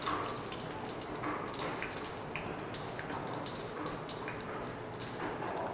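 Garlic fries golden in hot oil in a pan, a faint, steady sizzle with fine crackles and small pops running throughout, with no voices over it.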